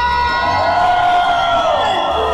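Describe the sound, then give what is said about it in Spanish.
A crowd cheers and shouts continuously at a live radio station's 32nd anniversary celebration in the Valle de México. The roar stays loud and dense throughout, with high whoops and yells rising above it. “grito, señores, de toda la gente hermosa del Valle de México de Cristal 103.7”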